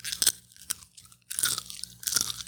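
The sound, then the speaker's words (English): A mouthful of popcorn is chewed close up in ASMR style: crisp, loud crunches come in several bursts, with short quiet gaps between the bites. “That's the sound of popcorn.”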